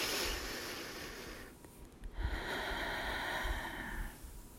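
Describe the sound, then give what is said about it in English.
A deep breath drawn in, soft and airy, swelling as a faint hiss after a brief pause, with no voice over it. “So take one more deep breath in with me.”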